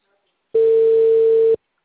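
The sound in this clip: A telephone line tone sounds while a call is being placed: one steady, unbroken tone with a faint buzz of overtones lasts about a second, alone, with silence before and after.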